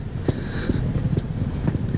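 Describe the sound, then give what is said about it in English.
Wheels of a rolling bag rattling over cobblestones on a city street in Rome near the main train station: a steady rumbling clatter broken by sharp, regular bumps, much like hooves on stone. “Oof, listen to my bag on those cobblestones.”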